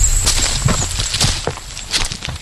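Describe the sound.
Footsteps tread along a fairly dark, straight stretch of road at night. The steps are soft, steady and gritty and fall in an even walking rhythm, with no voices over them.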